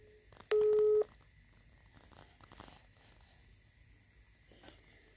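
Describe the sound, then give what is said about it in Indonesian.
A telephone call being dialled produces a single steady tone lasting about half a second, followed by faint hiss and low background noise. “jadi aku langsung aja nelpon”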